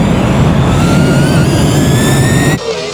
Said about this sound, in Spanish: ¡Abróchense sus cinturones! El vuelo Soy FM va a despegar.